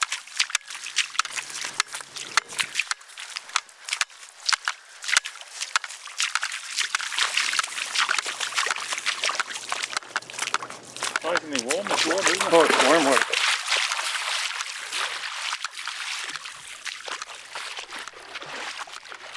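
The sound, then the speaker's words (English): Bare feet slosh through shallow tidal pools and wet sand on the crossing toward Holy Island, Lindisfarne: a steady wet splashing and swishing that builds in the middle, with voices at times. “Here's how he describes what I was doing, sloshing in my bare feet across the pools and sands toward Holy Island.”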